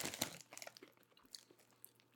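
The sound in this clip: Faint crunching and chewing of baked potato chips. A few crisp bites come at the start, then softer intermittent chewing.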